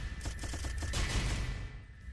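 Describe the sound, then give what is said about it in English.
Video-game gunfire aimed at rockets, a fast volley of rapid shots crackling in a quick run before blurring into a noisy wash, fairly faint throughout. “This is fun. Shooting at rockets. They want to kill me.”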